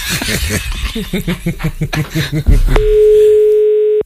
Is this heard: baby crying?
no